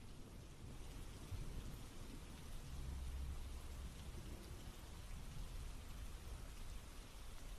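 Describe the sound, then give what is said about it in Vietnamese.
Heavy rain pours through dense forest trees in a deep mountain gorge, a loud, unbroken hiss of drops on leaves that stays steady throughout with no voices. “Cây cối ở đây tuy rậm rạp nhưng cũng không ngăn nổi cơn mưa nặng hạt.”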